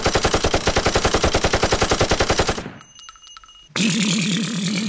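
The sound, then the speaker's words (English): Machine-gun fire from an action film rattles off as one long burst of rapid, evenly spaced shots that cuts off. After a short quiet gap, a loud, different sustained sound with a low wavering tone begins. “I assume people fire a lot of machine guns in it. You better fucking believe they fire guns.”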